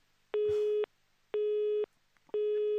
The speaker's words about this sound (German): Die Leitung ist unterbrochen. Das war zu erwarten.